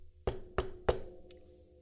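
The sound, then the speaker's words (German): Knocking on a door: three firm, evenly spaced knocks, each leaving a short ringing tail, followed by a faint high tick before fading to quiet. “Und da gingen sie an seine Tür und klopften einmal.”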